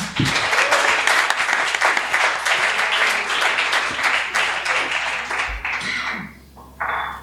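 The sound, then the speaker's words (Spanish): Applause from a crowd, dense continuous clapping that stays loud for about six seconds, then thins out and fades into a few scattered claps near the end. “un aplauso para Ethan”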